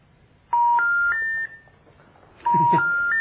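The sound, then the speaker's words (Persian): Electronic telephone tones sound while a call waits for an answer: a clear three-note beep pattern stepping upward in pitch, played twice with a short gap between, over faint background hiss. “ببینیم آیا این تماس ما رو جواب میدن یا خیر.”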